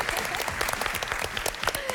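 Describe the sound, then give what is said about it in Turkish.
A studio audience breaks into lively, rapid applause between rounds of a televised competition show, with many quick claps at a loud, even level. “Az önce böyle tam alkış yaparken bir dans yapıyordunuz.”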